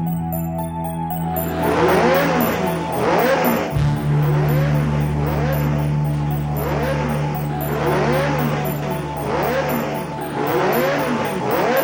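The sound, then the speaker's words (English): Synthesized racing car engine from the arcade video game Pole Position: a loud, steady electronic drone with buzzy harmonics and a rhythmic pulsing pattern, dropping briefly before settling on a higher held tone, with no talk. “Talk at least about Pole Position, because this was another hugely influential, hugely important game, this time in the racing genre.”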